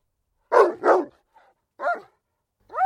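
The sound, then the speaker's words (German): An old dog barking: two quick loud barks, then a faint yelp, then two more separate barks with silent gaps between them. “Nun, alter Hund, was hast du denn?”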